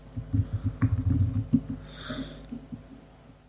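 Rapid clatter of keys on a computer keyboard as a message is typed, a quick run of many crisp clicks that thins out and fades to near silence by the end.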